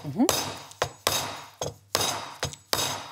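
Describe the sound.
The back of a knife strikes a whole coconut to split it, the nut turned between blows: several sharp, hard knocks in an uneven rhythm, each with a brief hollow ringing tail.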